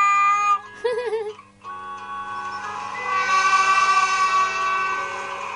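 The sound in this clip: Shinkansen bullet train: a loud, layered tonal whine that wavers briefly near the start, then settles into steady, bright sustained tones that carry on throughout.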